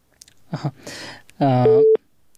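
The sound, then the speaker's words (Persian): After brief talk, a single steady electronic busy tone sounds as a caller's line from Kunduz province drops, holding one pitch before cutting off. “تماس ای دوست ما قطع شد که از ولایت کندوز تماس گرفته بودن.”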